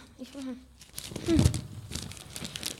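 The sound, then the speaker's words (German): A large sheet of paper is unfolded with crisp crinkling and rustling that peaks in one louder crackling burst, then trails off into lighter rustles, alongside a brief voice. “Die Weihnachtsfrau faltet ein großes Blatt auseinander und zeigt es in die Runde.”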